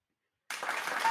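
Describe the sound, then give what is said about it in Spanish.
An applause sound effect played in: half a second of silence, then dense crowd clapping starts abruptly and carries on evenly at moderate level until the end. “Sí, meter ahí un aplauso a esto. Espera, a ver, ¿qué, dónde está?”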